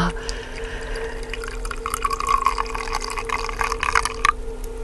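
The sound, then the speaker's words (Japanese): Hot water poured from a ceramic vessel into a teapot holding tea leaves: a steady, continuous trickle with light splashing and dripping, moderately loud over a faint constant hum. “陶器の入れ物でお湯を冷まして、うん、それを茶葉を入れた急須に入れていただくということですね”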